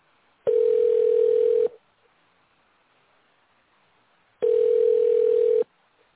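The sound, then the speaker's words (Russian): A telephone ringback tone plays while a call is being put through: two long, even, steady tones of just over a second each, separated by a long quiet pause of faint line noise. “Продолжаем дозваниваться. Оставайтесь на линии.”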